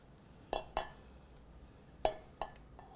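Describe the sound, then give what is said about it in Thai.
Light metallic clinks ring against a cooking pot as green onions are added: a few sharp, faint taps spaced irregularly, with quiet background between them. “ต่ออีก2นาที2นาทีสุดท้ายที่อาจารย์จะต่อนะคะอาจารย์จะใส่ต้นหอมลงไป”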